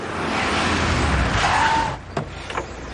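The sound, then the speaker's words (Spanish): A white Mercedes car arrives with loud, steady engine and road noise that holds for about two seconds, then drops away, followed by a few short clunks. “Llega el Mercedes blanco.”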